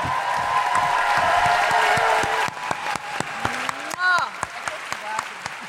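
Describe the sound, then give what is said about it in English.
An audience claps and cheers loudly for about two seconds, then the applause thins to scattered claps while a voice speaks over it. “Please put your hands together and make incredible woohooing noises”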